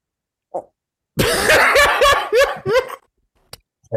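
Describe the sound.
A person's cough: a faint click, then a loud, rough burst that breaks into several quick, voiced, hacking pulses, fading into a couple of brief clicks.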